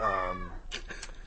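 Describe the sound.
A cat gives a single short, falling meow, followed by a few faint, scratchy noises.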